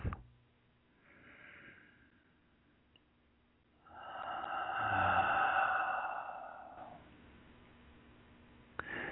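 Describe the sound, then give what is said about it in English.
Slow breathing during a guided meditation: a faint inhale through the nose, then a pause. A long, louder exhale through the mouth follows for about three seconds, with a soft steady tone underneath. “Take another breath in through your nose and out through your mouth. And one more breath.”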